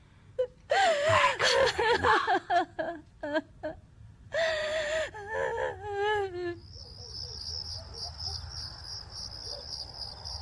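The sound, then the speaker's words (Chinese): A woman next door sobs and wails in broken, wavering cries, with gasps between bursts. The crying then stops, and a steady high chirping of crickets carries on alone. “借问大哥啊，这隔壁是何人在哭啊？”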